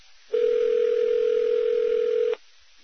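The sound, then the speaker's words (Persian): A telephone ringback tone sounds on a call to a listener in California: one steady, even tone lasting about two seconds, alone against quiet line hiss. “حتی به یکی از شنونده ها تو کالیفرنیا زنگ زدیم، با هم بشنویم.”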